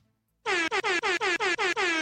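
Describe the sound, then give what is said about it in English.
A blaring air horn sound effect fires off a rapid string of short, loud blasts, each one sliding slightly down in pitch, with nothing else heard. “A little air horn extra there for Okawa.”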